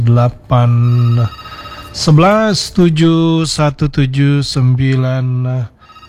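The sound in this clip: A telephone rings for an incoming call, giving one steady, buzzing tone at the start. A person then talks in loud, uneven bursts.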